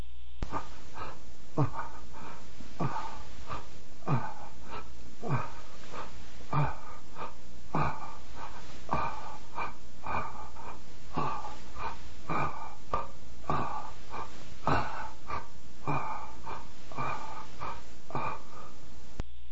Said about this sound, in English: Next, seesaw breathing, where it is a rapid inhale to the chest, exhale to the belly.